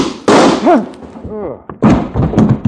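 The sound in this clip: A gunshot in a radio drama: one sharp, loud bang, followed by a brief burst of voices.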